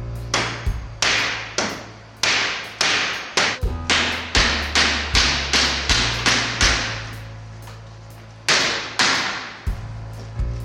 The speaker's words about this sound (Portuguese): No vídeo dá pra ver os funcionários abrindo as caixas de madeira.